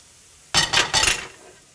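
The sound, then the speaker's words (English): Garlic going into a cooking pan while making chicken soup with shiitake mushrooms, heard as three quick, bright rustling and scraping bursts in close succession that fade out within about a second. “So a little garlic now goes into here. Garlic into here.”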